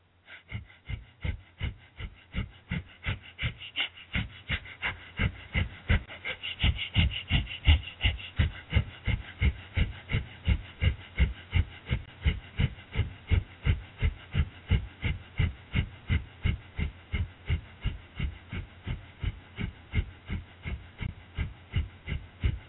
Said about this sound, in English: We're going to do breath of fire with this stretch for 2 minutes.